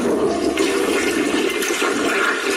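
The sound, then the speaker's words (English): A toilet flush sound effect: a loud, continuous rush of swirling water that fills the whole moment without any voices. “yeah, that's the closest I can get is just flush right there.”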